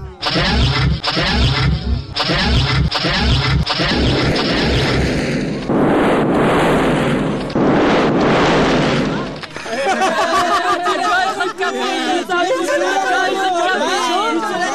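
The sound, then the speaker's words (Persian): Radio drama sound effect of a spaceship starting and spinning: loud rushing, roaring bursts rise in the middle, with a rhythmic pulsing passage before them and voices talking at the start and end. “بله، سفینه نزدیک است که حرکت کنه. اوهو اوهو، ما چی میبینم شنوندو عزیز؟ سفینه دور خود چرخ میزنه.”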